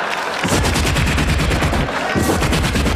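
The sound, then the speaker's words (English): Car-mounted .50 caliber machine guns fire in loud, dense, rapid bursts. The firing runs almost without a break and eases briefly about two-thirds of the way through. “Don't you wish sometimes instead of having those cute little lights in the front of your car, you had 50 caliber machine guns mounted up there?”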